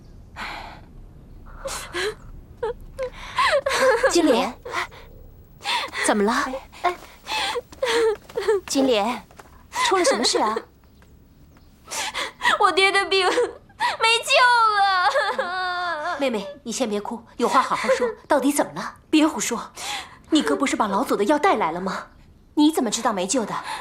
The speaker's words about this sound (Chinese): 妹妹，你先别哭，有话好好说。